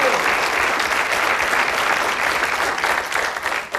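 A church audience applauds at a morning service: loud, dense, continuous clapping that stays even for the whole stretch and thins slightly at the end.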